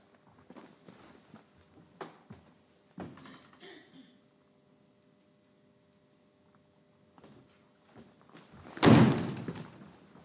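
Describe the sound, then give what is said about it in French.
A door closing, heard as one heavy, loud thud near the end after a stretch of scattered light knocks and near silence. “Tu fermeras la porte en sortant?”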